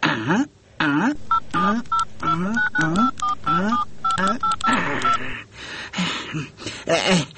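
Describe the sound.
Touch-tone beeps sound as a telephone number is dialed, a run of short, bright tones at an uneven pace. Rising, wavering vocal sounds mix in around and between the beeps.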